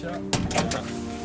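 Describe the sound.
Knocking on a door at a construction site: a few quick raps in a short burst over a steady low hum.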